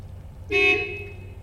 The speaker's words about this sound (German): Das Auto hupt.